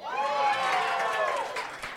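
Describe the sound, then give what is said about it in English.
Studio audience cheering on a television game show: a loud swell of many voices whooping, rising to a peak and then tapering off toward the end. “That's a fun part about this game is they cheer for the movies they like. So if you pick ones that they like, it gets a big reaction.”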